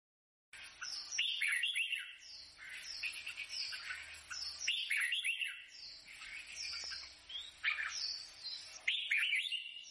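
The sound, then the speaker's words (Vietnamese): Birds singing outside a window, a busy stream of high chirps, tweets and short trills in repeating phrases, fairly soft and continuous after a moment of silence at the start. “Út Noãn Tâm bị tiếng chim hót ngoài cửa sổ làm thức tỉnh”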